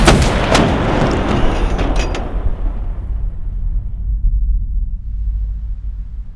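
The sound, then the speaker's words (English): A weapon is fired in a game: a burst of sharp, cracking blasts over a heavy booming rumble, which then settles into a long, low, decaying roar. “Ready to fire, sir. Excellent. Fire away.”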